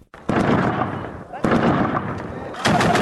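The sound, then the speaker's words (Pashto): Gunfire from fighting between Afghan forces and Taliban fighters in Kalat, the centre of Zabul: three loud, sharp reports, each followed by a long, rumbling decay. “دا په زابل مرکز کلات کې د افغان ځواکونو او وسلوالو طالبانو ترمنځ د جګړې ډزې دي.”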